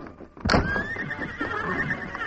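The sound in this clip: A horse whinnies in a stable, a loud, shrill neigh that starts sharply and then trails off in a long, wavering cry over faint background noise.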